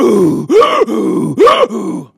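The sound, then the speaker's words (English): A voice imitates a man groaning and breathing heavily: a continuous low moan broken by two sharp swoops that rise and fall in pitch. “starts breathing heavily, like hyperventilating”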